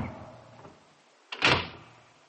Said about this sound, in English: the ponderous mass of oak whipped itself out of my fingers and clanked to with a formidable rumble and a noise like the falling of an automatic bar